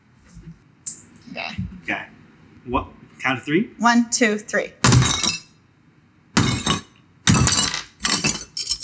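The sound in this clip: A foley effect of an object being smashed and glass breaking: people talk first, then a few loud, sharp crashes with bright shattering bursts separated by short pauses.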